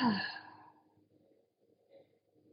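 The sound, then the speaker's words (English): A slow exhale during a meditation, released as one soft sighing breath at the very start that fades within half a second, followed by near-quiet with only faint low murmurs. “Inhale into both of these places. And as you exhale, just release.”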